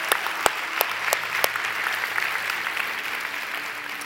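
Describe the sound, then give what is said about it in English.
Clapping from a church audience welcoming people: steady, dense applause with several sharper individual claps standing out in the first second and a half, then continuing at an even level. “Can we put our hands together and welcome people who made that decision?”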